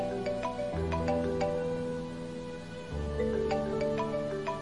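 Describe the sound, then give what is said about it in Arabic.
A mobile phone rings with an incoming call from an unknown number, its melodic electronic ringtone playing continuously and loudly, with the tune shifting notes a couple of times as it repeats. “لما خلصت قراية الخبر لقيت موبايلي بيرن، رقم غريب مش متسجل عندي، بس ما استغربتش ان الموبايل رن”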